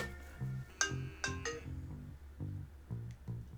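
Telephone ringing with an incoming call: a faint electronic ringtone that repeats a short melodic pattern of bright tones several times.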